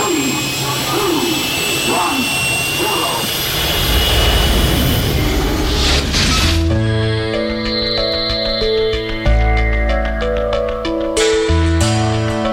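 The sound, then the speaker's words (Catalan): Roaring aircraft-engine effect of a ship taking off, a dense jet-like whoosh that swells for about six seconds before giving way to synthesized music with sustained tones. “Som a punt d'enlairar-nos amb la nau La Fall Lluna.”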